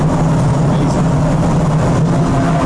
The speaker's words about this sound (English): And the noise you hear here is also our second powder coat booth.